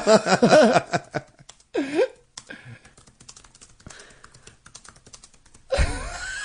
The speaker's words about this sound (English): I can't believe I'm writing him this message.